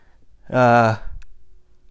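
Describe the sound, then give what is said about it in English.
A single nervous yawn: a short voiced, open-mouthed groan lasting about half a second, followed by soft breathing. “Sorry. I guess I yawn when I'm nervous.”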